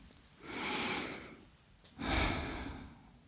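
A person taking a deep breath: two long, soft, airy breaths, one after the other with a short gap, faint and without speech.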